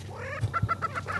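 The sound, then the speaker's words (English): Male lek birds with striped plumage and bulging orange neck air sacs display on a patch of high ground. A steady low hum sits under a quick series of short, clucking notes. “Half a dozen football-shaped males with striped plumage and bulging orange air sacs on their necks are strutting around this patch of high ground, picking fights and trying to impress the ladies.”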